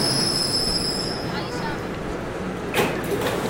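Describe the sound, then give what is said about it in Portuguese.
A train bound for World Trade Center runs along its rails with a steady, dense rumble and thin, high wheel squeal, with a short burst of hiss near the end. “This is the train to World Trade Center. The next and last stop is World Trade Center. Stand clear of the closing doors.”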